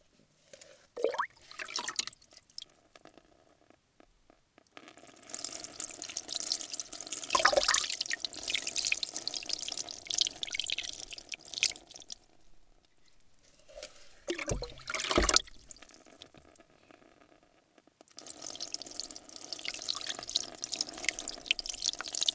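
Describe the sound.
Water pours and splashes as hair is rinsed during a salon hair wash, a soft flowing rush in several longer stretches separated by quieter pauses.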